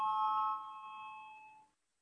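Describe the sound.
An electronic voting bell chimes in the Latvian parliament, a bright ringing tone that steps down in loudness partway through, then fades out and leaves silence.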